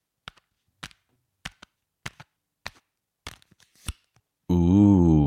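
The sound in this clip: A deck of cards is shuffled for a card reading about the week ahead, with seven brisk, evenly spaced papery slaps, then a voice starts talking.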